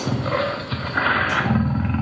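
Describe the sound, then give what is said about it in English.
A tiger roars in an ancient Chinese shadow puppet show as a puppet hero battles a puppet tiger on stage. A deep, rasping growl runs loud and unbroken through the short clip. “On this stage, a puppet hero battling a puppet tiger.”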